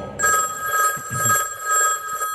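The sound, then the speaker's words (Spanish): A telephone bell rings at night inside a house in North Yorkshire, England. The metallic trill is loud and warbling and runs without a break from just after the start to the end. “el teléfono suena en la casa de Lord Armstrong, en el norte de Yorkshire, Inglaterra”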